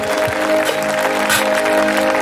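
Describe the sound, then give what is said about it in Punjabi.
Congregation clapping loudly together at a Punjabi-language church service, a dense, steady patter of many hands held at even volume throughout, with a sustained tone beneath. “ਹਾਲੇਲੂਯਾ ਜਿਹੜੇ ਕਹਿੰਦੇ ਚੰਗੀ ਆਪਣੇ ਹੱਥ ਚੱਕੇ ਤਾਲੀ ਵਜਾਓ ਜ਼ੋਰ ਨਾਲ ਆਮੀਨ।”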